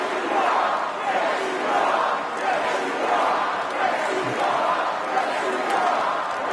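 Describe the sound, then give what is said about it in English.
A crowd at a Trump rally responding with a loud, sustained roar of many voices, swelling and easing in a rough rhythm, like chanting. “When Trump said, "I'm not supposed to be here tonight," the crowd responded with,”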